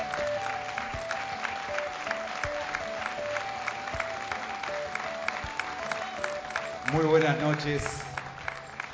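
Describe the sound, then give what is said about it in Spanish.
Audience applause at an event honoring a national folk singer's birthday: a dense, steady patter of many clapping hands that swells briefly louder near the end. “Y qué lindo aplauso, y sé que es un aplauso que no es para mí, y es para la señora Nelly Omar”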